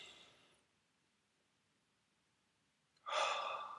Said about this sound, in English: just stop, take a couple of deep breaths.